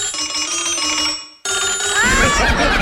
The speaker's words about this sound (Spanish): Si su teléfono suena así.